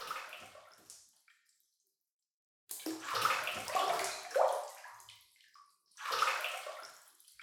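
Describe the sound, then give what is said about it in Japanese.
Bathwater with hot spring bath salts splashing and sloshing in a tub in three soft bursts. The first is short, followed by a silent pause. Two longer, gurgling swishes follow, all faint and alone. “お風呂、入ってくださいね。今日は草津温泉の素を入れました。”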